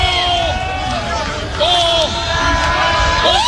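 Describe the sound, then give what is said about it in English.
Crowd noise fills the stands at a 2026 Husker baseball game, a steady loud roar of cheering and chatter with scattered shouts rising above it, holding level throughout. “Well, and with every pitch out of the zone, the crowd gets a little bit louder and louder.”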